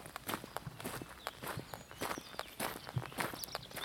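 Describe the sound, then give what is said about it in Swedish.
Footsteps tramp across a large meadow on the way toward a wetland, many steady steps in a continuous walking rhythm with no talking. “Jag ska knalla vidare här upp över den här stora ängen för att komma till någon slags våtmark.”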